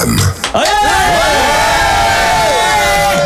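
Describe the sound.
A live audience cheers loudly at a farewell show, with many voices whooping and shouting together. After a brief dip near the start, the sound swells into sustained cheering that holds to the end.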